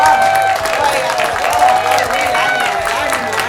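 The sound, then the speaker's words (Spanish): Applause in a radio studio for visiting guests from a band, a steady wash of clapping that runs throughout, with other sound mixed in underneath. “le pido un gran aplauso a los chicos.”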